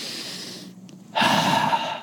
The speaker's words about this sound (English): Okay, let's all take a deep breath.